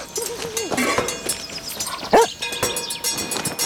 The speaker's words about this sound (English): A shaggy dog chases him to a stile.